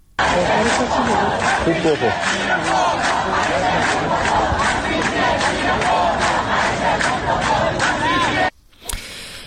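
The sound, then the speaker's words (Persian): Students of Islamic Azad University, Barajin unit in Qazvin, chant protest slogans as a loud crowd in steady rhythmic bursts for several seconds, then the chanting cuts off sharply near the end. “در قزوین هم دانشجویان دانشگاه آزاد در واحد باراجین روز یکشنبه با سر دادن شعار به اعتراضات خودشون ادامه دادند.”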